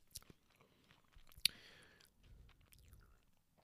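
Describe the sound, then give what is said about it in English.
Someone crunches on a cracker. One sharp bite stands out near the middle, and quiet, irregular chewing and soft crunches follow. “I'm sorry, I had to eat a cracker.”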